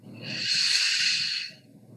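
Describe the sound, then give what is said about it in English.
A deep breath drawn in through the nose during a guided breathing exercise: a soft, airy hiss that swells steadily, holds for about a second and a half, then fades away. “Now, with your eyes up like that, you're going to take a deep breath in and hold it as long as you can.”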